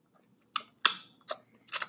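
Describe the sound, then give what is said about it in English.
Crunchy chewing of hash browns at breakfast: four crisp, bright crunches, spaced roughly evenly, each fading quickly, with no talk over them. “These little hash browns, they should... That should be hitting. Mmm. I have breakfast.”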